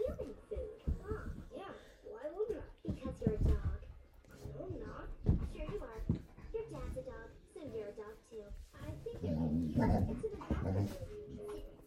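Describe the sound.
Dogs whimper, yip and bark in short bursts while people talk over them throughout.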